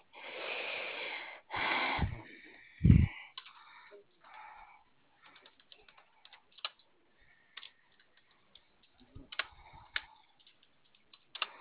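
Light typing on a computer keyboard: scattered, quiet key clicks in short irregular bursts with pauses between them. Louder rustling noise comes first.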